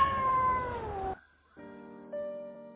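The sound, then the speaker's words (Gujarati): A cat meows in a drawn-out tonal call that sinks slightly in pitch. After a brief silence, a further steady, tonal cry follows. No voices. “ઊંચા giraffe તથા મ્યાઉં મ્યાઉં કરનાર બિલાડીઓ આવી”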